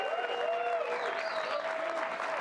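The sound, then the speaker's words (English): A live studio audience at a televised basketball program claps steadily and warmly, giving itself another hand, with dense applause held at an even level from start to finish. “What a tremendous studio audience we have here tonight, by the way. I think you need to give yourselves another hand because of how great you all are.”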